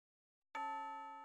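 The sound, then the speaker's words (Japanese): A school chime rings as a single bright, clear tone that strikes suddenly and then sustains evenly, slowly fading, with nothing else heard around it. “あ、チャイム鳴っちゃいましたね。”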